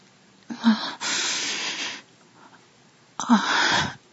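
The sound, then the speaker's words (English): A person inhales with sniffing breaths: a few breathy, airy draws of air, including one long sustained intake, with short pauses between them and no talking. “I hear you inhale.”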